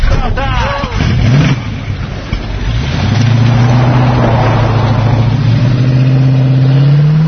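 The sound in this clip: A cheap first car's engine revs in a low, steady drone that climbs slightly toward the end, with voices briefly heard at the start.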